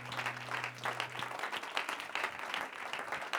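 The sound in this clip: Dense, steady applause from an audience welcoming a preacher to the pulpit, many hands clapping continuously at an even level, with a low hum fading out early on.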